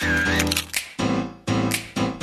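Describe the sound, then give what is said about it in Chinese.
Camera shutter clicks sound as a few sharp, bright bursts over a bright, steady musical backing, spaced roughly evenly and loud against the tune. “咔嚓咔嚓，美好的事物就用相机拍下来。”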